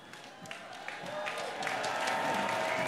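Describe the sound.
Audience applause at a Prince tribute gathering, faint scattered claps that build into a fuller, steady round and grow louder toward the end.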